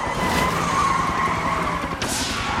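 During a police chase on a road, cars speed and skid. Tires squeal in a sustained high screech over continuous roaring engine noise, and a sharp swishing pass comes near the end.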